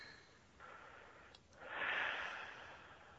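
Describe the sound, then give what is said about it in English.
A slow, deep, relaxing breath, soft and airy, swelling gently and then easing off, faint and alone without talk. “We can do this now together. Just some deep, relaxing breaths.”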